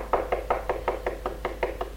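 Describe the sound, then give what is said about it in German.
Knocking on a door, a rapid, even series of many dull knocks at a steady rhythm, fairly quiet and heard alone over a low hum. “Und klopft an die Tür.”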